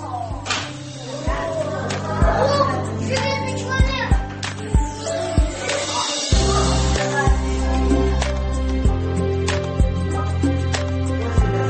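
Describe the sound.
Children play at a kindergarten, chattering and calling out over one another, with many sharp slaps or smacks cutting through the steady, busy din.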